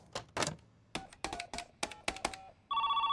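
A phone call is placed in a dubbed animated series: a quick run of sharp key presses with short beeps, followed by a bright, trilling telephone ring that begins at the end and continues steadily.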